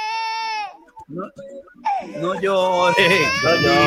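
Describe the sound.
A baby cries loudly in high, tonal wails, broken by a short stretch of choppy whimpering before the crying swells again and continues strongly.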